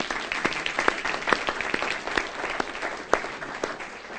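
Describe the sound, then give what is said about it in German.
An audience claps during a church service, a dense, sustained applause of many hands with sharp individual claps standing out throughout, holding at a moderate, even level without any talking. “Ein Applaus, ihr Lieben.”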